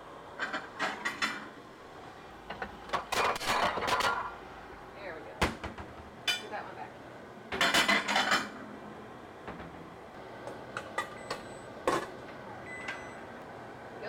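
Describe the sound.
A knife prying baked donuts out of metal muffin tins: scattered bursts of metallic scraping and clinking of blade against tin, with voices at times.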